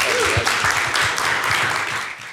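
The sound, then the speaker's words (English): Applause from a church audience, a dense, steady clatter of many hands clapping that eases off slightly toward the end. “Everybody give him a hand.”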